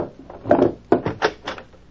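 A wooden desk drawer is opened, giving a few short knocking and scraping bursts of moderate loudness one after another, with no voices.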